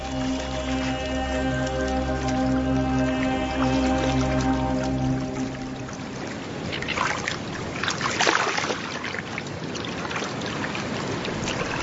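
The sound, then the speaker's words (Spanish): Water splashes and rushes as a pelican lands softly on the surface on its webbed feet. A sustained tonal hum comes first, then fades into a soft, broad, hissing wash of water that swells briefly near the end. “Imagen del pelícano posándose suavemente en el agua utilizando sus patas palmeadas.”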